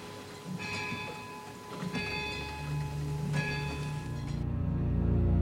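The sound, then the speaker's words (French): A clock striking midnight, its chimes ringing out through old stone: three resonant, bell-like strikes about 1.4 seconds apart, each with a bright ringing decay, over a steady low background hiss that grows heavier toward the end. “À minuit pile, l'horloge se met à sonner. Le bruit résonne et traverse les vieilles pierres.”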